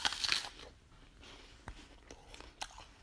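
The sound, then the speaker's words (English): An apple is bitten and chewed: a sharp, crisp crunch opens the bite, followed by a few fainter, scattered crunching chews. The sounds are quiet, with no talking. “This apple is just way too plain. But it's still a very stereotypical and delicious apple.”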